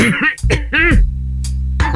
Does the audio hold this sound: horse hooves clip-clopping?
no